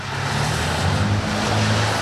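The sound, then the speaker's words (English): Heavy street traffic flows along an avenue in Detroit while a soft rain falls. The traffic makes a steady, dense roar with a low engine drone beneath a wide hiss, and no one talks. “A soft rain is falling on heavy traffic along Jefferson Avenue, connecting a mostly barren edge of Detroit with the affluent Grosse Pointe suburbs.”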